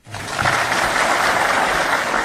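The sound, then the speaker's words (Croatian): Dense, continuous applause from an audience at a youth performance swells in quickly and holds at a loud, even level of rapid clapping. “Ovo je samo jedan od bezbroja aplauza koje je na velikom broju priredbi i svečanosti za svoj kreativni rad i prikazano stvaralaštvo dobilo na hiljade mladih”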